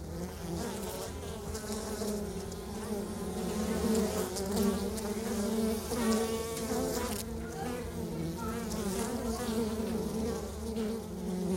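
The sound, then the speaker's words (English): Bees humming around their hive in a backyard give a dense, continuous buzzing drone. It is steady and fairly loud for the whole stretch, with overlapping wingbeat tones and no clear breaks. “So here are what Dustin's bees sound like as they hum around their hive.”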